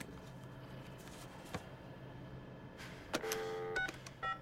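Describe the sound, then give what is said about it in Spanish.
A guard dials a telephone number from the back of a business card, producing a few faint keypad beeps near the end, one held longer than the others, over a quiet hiss. “Hace la llamada mientras mira a Ji-hun.”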